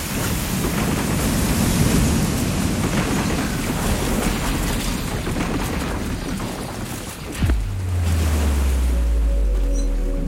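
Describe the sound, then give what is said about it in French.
Raging stormy sea waves battering a ship as it breaks apart, a dense continuous roar for about seven seconds that then eases into a lower rumble with a steady low drone. “En quelques heures, la mer déchaînée disloque le navire.”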